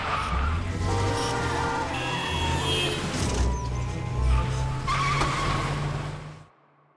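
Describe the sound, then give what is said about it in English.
Car tires squeal loudly while peeling out on side roads in Marin County, a sustained screeching skid over engine roar that lasts several seconds before cutting off sharply. “we got pulled over by the local sheriff for peeling out on the side roads of Marin County.”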